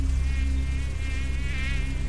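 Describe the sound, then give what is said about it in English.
Swarms of blood-sucking insects buzz in the summer heat over a putrid marsh, a dense, continuous high whine that wavers slightly in pitch above a steady low hum, with no voices. “blood-sucking insects are waiting for you in this great heat of summer.”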